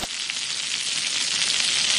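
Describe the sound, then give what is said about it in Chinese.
Loud, steady sizzling of tofu skin being stir-fried in a wok with scallion, ginger and pressed tofu, a dense, even hiss throughout with no pauses. “再放点葱姜干子，下千张， 炒千张咱们就得颠了是吧？ 对，这叫翻锅。”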